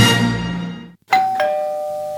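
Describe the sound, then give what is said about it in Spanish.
Doorbell ringing: a fading tone gives way to a two-note ding-dong chime, each bright note struck in quick succession and left to ring on and slowly decay, with no voices. “Tocan el timbre. A ver, ¿quién es?”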